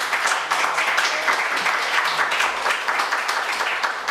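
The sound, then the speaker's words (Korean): Audience applause at a church lecture welcoming a pastor, fairly loud and dense clapping that continues steadily for about four seconds with small fluctuations in intensity. “우리 영상 목사님 박수 한번”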